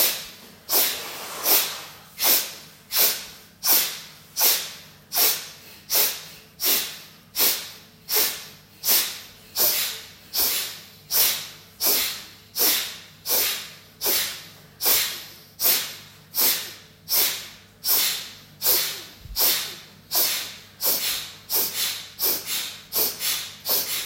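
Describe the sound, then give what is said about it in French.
A person does an alternate nostril breathing exercise, making many sharp, hissing nasal breaths in a steady, regular rhythm. A faint low hum continues underneath. “Fermez la narine gauche et on pratique à droite. Fermez la narine droite, on pratique à gauche.”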